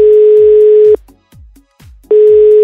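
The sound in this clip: An outgoing telephone call rings unanswered. A loud, steady electronic ringback tone sounds, stops for about a second, then starts again.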